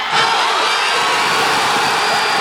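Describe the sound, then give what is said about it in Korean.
A crowd cheers as a come-from-behind goal seals a 2–1 win, a loud roar that starts abruptly and holds steady without letup. “그리고 모두가 애타게 기다리던 역전골이 터졌고 2-1 역전승이 확정되는 순간 현장 곳곳에서 환호성이 터져나왔습니다.”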